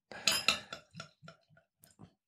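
A bottle of wheat beer being opened: a loud burst of sharp metallic clinks, then a handful of lighter, quieter clinks that thin out over about two seconds.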